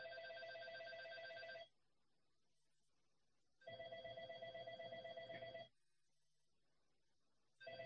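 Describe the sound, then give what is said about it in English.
A doorbell rings electronically in long bursts: two sustained ringing tones of about two seconds each, separated by silence, and a third beginning at the end. “excuse me for a minute, someone's ringing my bell.”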